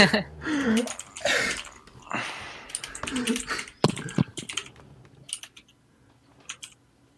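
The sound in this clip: A whole sentence is typed on a computer keyboard. Voices and laughter come first, then a run of quick, light key clicks that thins out into a few scattered taps.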